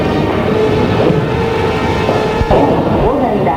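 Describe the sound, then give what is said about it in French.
A passenger train departs, a loud steady mechanical rumble with a low droning tone and a few heavier clanks toward the end. “Et le train s'en va.”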